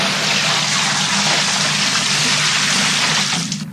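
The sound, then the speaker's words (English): Liquid, apparently beer, gushes from an emptied bucket over people's heads in a steady, loud rushing pour that lasts about three and a half seconds and then starts to taper. “You just emptied a bucket full of liquid on our heads.”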